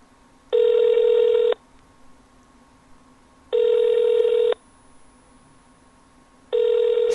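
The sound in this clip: A telephone rings unanswered in three steady electronic ring bursts, each about a second long and evenly spaced with quiet pauses between. The last ring is cut off at the end.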